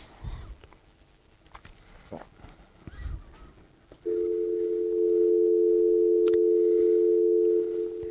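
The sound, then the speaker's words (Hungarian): A telephone tone sounds while a call is placed. It is a steady, unbroken, mid-pitched buzz that begins about halfway through and holds to the end, after a stretch of quieter rustling and soft knocks. “Jó, akkor én most hívom őt.”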